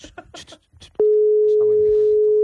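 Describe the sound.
A steady telephone line tone sounds while a call is placed to a wedding, holding one unbroken mid pitch for over a second after a few words of speech, with voices continuing faintly beneath it.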